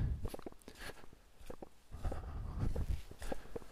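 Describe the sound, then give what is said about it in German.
Footsteps on a narrow, earthy forest trail at night: many soft, crunching steps in a steady walking rhythm, quiet throughout, with no talking. “So, ich gehe noch ein paar Schritte und dann muss ich einmal verschnaufen.”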